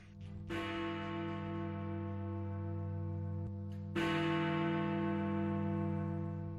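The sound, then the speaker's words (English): Big Ben, the large bell in the London clock tower, strikes twice, a few seconds apart. Each deep bong has a sharp attack and a long, humming resonance that rings on between and after the strokes. “That is the sound of Big Ben.”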